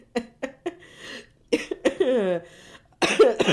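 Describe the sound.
A coughing fit: a few sharp coughs in quick succession, then strained vocal sounds and a further burst of coughing, with some talk mixed in.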